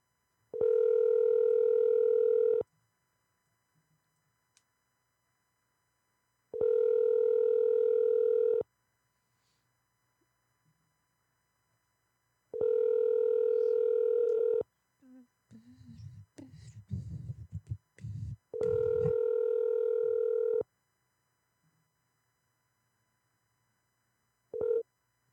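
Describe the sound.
Ringback tone of an outgoing telephone call: four long, evenly spaced rings, each about two seconds, separated by silent gaps, followed by a very short tone at the end.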